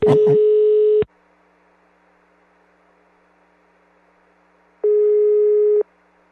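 Telephone ringing tone heard while placing a call: two steady, buzzy one-second tones separated by about four seconds of near silence.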